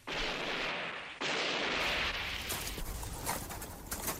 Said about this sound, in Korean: 먼 곳에서 이따금 한두 방의 총소리가 울려와 사람들의 공포를 자아내었다.